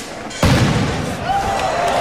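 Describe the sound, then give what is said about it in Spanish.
Firework rocket exploding at the start of the San Fermín bull run, one sudden loud bang about half a second in, followed by a long, noisy, slowly fading rumble. “En estos momentos, sí, el cohete estalla.”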